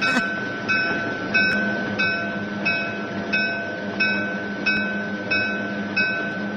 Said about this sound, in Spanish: a ver cómo suena esto, a ver. ¿Eso es que como un tren o qué?